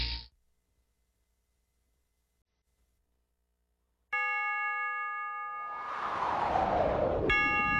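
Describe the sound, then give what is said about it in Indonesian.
A clock chimes three o'clock in the afternoon; after near silence, sustained bell-like ding-dong tones ring out, swell briefly into a noisier wash, and strike again just before the end. “Setiap kali engkau mendengar bunyi jam yang menunjukkan pukul 3 sore”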